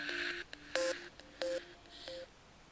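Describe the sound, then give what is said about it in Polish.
Short electronic startup melody from a Milestone audio player as it powers on after its play button is pressed: a quick series of clean synthetic beeping tones at shifting pitches, moderately loud with no talk. “Milestone odtworzył taką muzyczkę startową, taką melodyjkę.”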